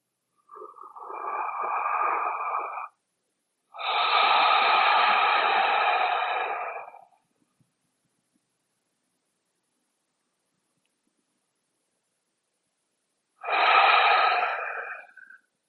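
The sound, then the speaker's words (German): Three slow, deep conscious breaths, inhaling a scent from the wrists held to the nose: long airy sniffing inhales separated by gaps, with a pause of silence before the last breath, soft and alone without talk. “Also, dann lass uns drei bewusste Atemzüge nehmen. Nimm deine Hände, deine Handgelenke zur Nase und atme diesen Duft ein für dich.”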